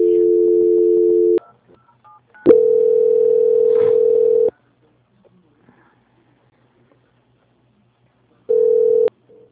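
A telephone line tone plays while a call is being transferred: three steady, mid-pitched tones, each lasting one to two seconds, separated by stretches of near silence.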